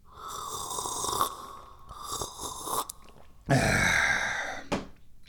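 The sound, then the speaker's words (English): Tie Guan Yin oolong tea is sipped with airy, breathy slurps, a few drawn-in sips and exhales of varying length, one stretch louder and longer than the rest. “I'm the guy who's always drinking tea. Oh, it's so good. Oh, it's delicious.”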